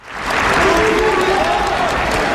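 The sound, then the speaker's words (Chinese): Warm applause from athletes, coaches and support staff welcoming Xi Jinping into a fitness hall at a winter sports training base. A dense, sustained wash of clapping swells quickly and holds, with speech over it. “专项体能训练馆内，运动员、教练员、服务保障人员代表以热烈掌声欢迎总书记的到来。”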